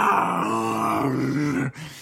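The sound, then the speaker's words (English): A creature roars in a video game as it spins and throws the player off its back. The roar is a low, growling and harmonic sound that holds a steady pitch for under two seconds before cutting off abruptly. “It spins and knocks you off. And you hear it roar.”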